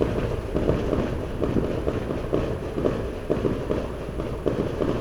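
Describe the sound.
A steady barrage of fireworks goes off as a dense run of rapid, low thumps and crackles at a fairly even rhythm. The sound stays moderately faint, with no talk.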